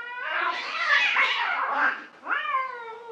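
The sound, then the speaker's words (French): A cat screeches while being chased by a dog: two loud, drawn-out, harmonic yowls, a long wavering one followed by a shorter rising cry, with no talking. “Vous vous approchez et finalement, vous vous rendez compte que c'est juste un chat poursuivi par un chien.”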